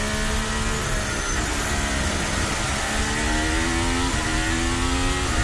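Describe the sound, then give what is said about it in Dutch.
A Formula 1 car's engine heard onboard during third practice at the 2026 Monaco Grand Prix gives a loud, continuous high-pitched whine. The pitch climbs steadily, drops briefly at an upshift near the end, then climbs again. “We zijn aan boord bij Lewis Hamilton.”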